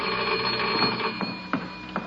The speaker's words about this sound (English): There's the phone